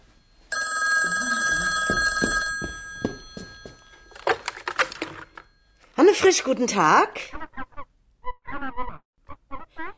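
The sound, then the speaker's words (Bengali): An old-style telephone rings with one sustained, harmonically rich ring of about two seconds. Afterward, voices talk in short bursts. “Telephone বেজে ওঠে”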